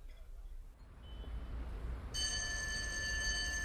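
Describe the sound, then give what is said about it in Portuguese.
A telephone begins ringing partway through, a steady, bright, high-pitched ring that starts suddenly and continues to the end over a faint low background rumble. “Oh, desculpa, tenho que atender esta chamada.”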